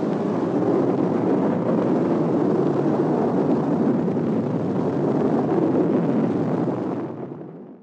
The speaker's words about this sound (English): As the countdown proceeds, the heater cooler drop tank is shed. Light up. Lift off.